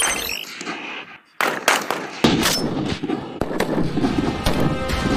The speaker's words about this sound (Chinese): 但191腰式步枪性能硬核，弹道精准。能颠勺的手扣起扳机来，照样弹无虚发。